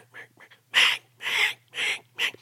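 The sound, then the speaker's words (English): A human voice imitating a hen mallard's quack: a couple of soft, short calls, then four louder nasal quacks in an even rhythm, with no other talk. “And I'm trying to tell you a secret. That's how that hen mallard talks.”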